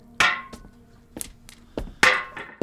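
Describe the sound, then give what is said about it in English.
Heavy hammer blows on metal as an old cast iron boiler is broken apart in a basement: a series of sharp, ringing clangs and thunks at an uneven pace, with quieter knocks between the louder strikes. “working on the boiler down in the basement, breaking apart the old one to make way for the new.”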